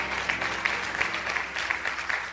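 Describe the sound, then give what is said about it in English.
A church audience claps their hands during worship: dense, continuous applause from many people, steady and fairly loud throughout, with individual claps blurring into an even patter. “Come on and clap your hands and shout hallelujah to the living Lamb of God.”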